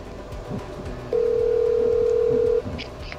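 A steady electronic telephone tone while calling someone back: a single flat, mid-pitched beep lasting about a second and a half, with faint background noise around it and no voices.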